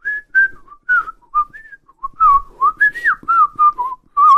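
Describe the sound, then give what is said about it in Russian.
A person softly whistles a melody from an upper bunk in the dark, a clear, high series of many short gliding notes in an unhurried tune, with no voices alongside. “На верхней койке Убер тихонько и мелодично насвистывал какую-то мелодию”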